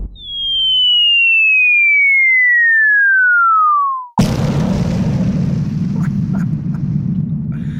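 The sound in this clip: A radio jingle sound effect: a long, smooth whistling tone glides steadily downward for about four seconds, then a loud bomb explosion bursts out and trails into a heavy, rumbling roar with scattered crackles.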